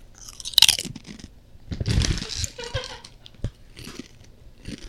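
Loud crunching of Doritos chips with guacamole: a sharp bite early, then a burst of crisp chewing, followed by softer, scattered crunches.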